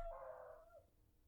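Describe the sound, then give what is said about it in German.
A dog's single faint howl or whine: a steady, mid-pitched drawn-out tone lasting under a second that tails off quietly. “das war wieder der Hund.”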